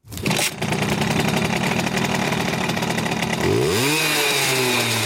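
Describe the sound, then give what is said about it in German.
A Simson moped engine runs at a fan rally with a loud, steady, buzzing drone, then revs up and rises in pitch before holding at the higher speed. “So hört sich das Kultmoped an.”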